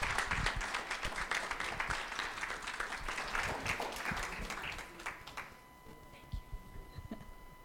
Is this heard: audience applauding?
yes